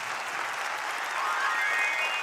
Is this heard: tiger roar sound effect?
no